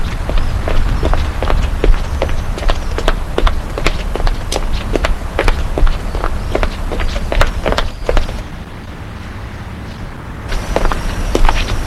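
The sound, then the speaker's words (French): Running footsteps of a man through the streets, many quick, evenly spaced slaps that drop out for a short pause near the end, then resume at the same brisk pace. “Il court au hasard dans les rues.”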